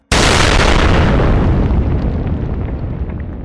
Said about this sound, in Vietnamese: bỗng nghe thấy một tiếng nổ long trời lở đất.